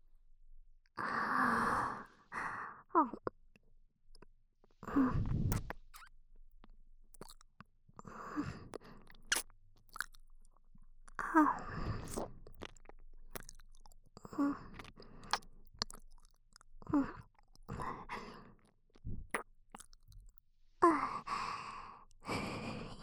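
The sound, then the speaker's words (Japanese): Close-up mouth sounds of gentle nibbling and biting on an ear: soft, moist bites and smacks in an irregular run of short bursts with brief pauses, quiet and intimate, with no talking. “じゃあまずはカプカプ噛んでみるね。”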